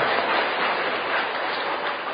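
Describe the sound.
An audience in a hall claps during a Buddhist talk, a dense, even applause that runs steadily for about two seconds.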